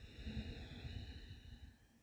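A soft, deep inhalation during a guided breathing meditation, heard as a long, faint, steady breath drawn in over about two seconds beneath sustained high tones.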